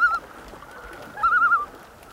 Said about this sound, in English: The male from that pair spooked and made that sound. It's called a tremolo.